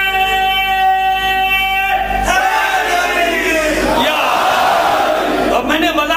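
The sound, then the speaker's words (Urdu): A crowd chants a slogan in unison during an Urdu speech: loud, massed voices shout together for several seconds, filling the whole stretch. “میں نے نعرہ طلب نہیں کیا تھا, لیکن لگانا ہے تو صحیح طریقے سے لگائیے.”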